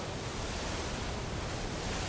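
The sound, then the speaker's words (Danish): Wind and waves around a small red rubber boat at sea, a steady rushing roar of gusts and surf with no breaks. “Men nu er det altså begyndt at blæse op. Bølgerne rejser sig omkring den lille røde gummibåd.”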